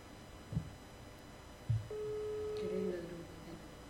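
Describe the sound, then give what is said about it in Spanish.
A steady telephone tone sounds after a phone call cut off just after it was answered. It begins about halfway through and holds at one pitch to the end, after two soft thumps over a low background. “es que recién atendió y se le cortó la llamada”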